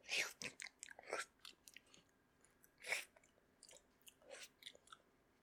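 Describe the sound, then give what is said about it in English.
Someone chews food alone, with many faint, crunchy, irregular bites and mouth sounds. No talk is heard. “I'll eat as fast as I want to eat. I don't care if my stomach hurts me.”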